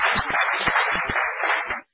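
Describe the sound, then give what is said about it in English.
Applause at a transit board meeting, celebrating the opening of new escalators at the Dupont Circle Station south entrance: a dense, sustained clatter of clapping that cuts off abruptly just before the end. “And thank you for that applause.”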